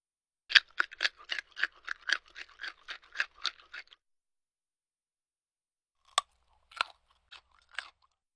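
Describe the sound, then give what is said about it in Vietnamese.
Crispy fried bacon is bitten and chewed in a quick run of many sharp, dry crunches, then after a pause a few more scattered crunches follow alone. “thịt xông khói đã được nướng giòn tan, dùng để diễn tả thứ gì đó không còn nước, nhẹ và giòn khi cắn”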